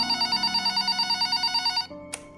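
A hotel telephone rings with a rapid, pulsing electronic trill that repeats steadily for almost two seconds, then stops abruptly. A short click follows.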